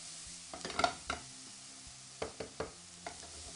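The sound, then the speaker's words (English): Asparagus dish being stirred in a pan: several soft scraping strokes of a utensil against the pan over a faint, steady sizzle, with quiet gaps between them. “Alrighty, so now that this is mixing around here, you can start to see our colors that we're working with right here.”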